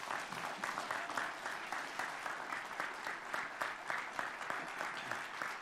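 A church audience applauds to welcome a visiting pastor, a dense, steady patter of many hands clapping at an even level for the whole stretch, with no voices standing out.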